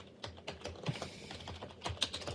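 Rapid typing on a computer keyboard, with many irregular, faint keystroke clicks in quick succession throughout.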